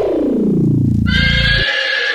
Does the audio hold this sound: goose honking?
no